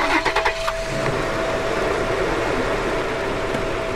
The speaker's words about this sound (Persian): سوار ماشین میشن ماشین دور میشه